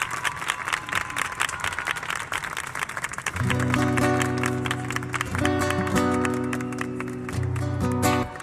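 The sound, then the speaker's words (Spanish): An audience applauds a singer with a steady wash of crowd clapping. Partway through, sustained musical tones come in and continue under the clapping. “quiero pedirle un aplauso”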